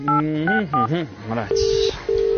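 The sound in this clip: Telephone keypad dialing tones: a voice is heard first, then two steady, loud electronic beeps, each held briefly with a short gap between them.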